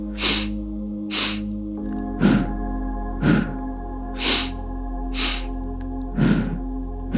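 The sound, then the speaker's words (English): Sharp, rhythmic breath pulses from a pulse-breathing exercise, a steady series of quick forceful breaths about one per second, with a low sustained drone beneath. “release a nice, deep, long exhale. And then continue the pulse breath.”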